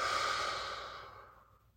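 A slow exhale during a breathing exercise: a soft, breathy rush of air that starts strong and gradually fades away over under two seconds, with no talking.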